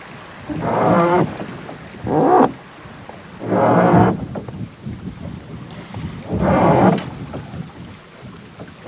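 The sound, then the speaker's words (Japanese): A wooden oar creaks as a river boat descends through Tenryu Gorge in Nagano, in a valley of autumn leaves. Four loud, evenly spaced creaking strokes stand out against a constant low rush of water and wind. “流れに乗った船は船頭さんが操る炉の音を紅葉の谷間に響かせながら下っていきます。”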